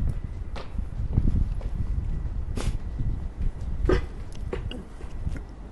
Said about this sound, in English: That was my coworker just walked by.